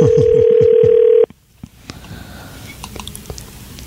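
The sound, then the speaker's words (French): A call goes out to a cell phone: one steady ringing tone lasts a little over a second and then cuts off sharply, followed by near quiet with faint clicks and rustles. “Donc, on va l'appeler sur son téléphone cellulaire.”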